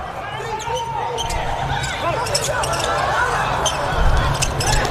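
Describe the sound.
Volleyball being served and played in a match, with a few sharp ball strikes over steady crowd noise and a commentator's voice running throughout.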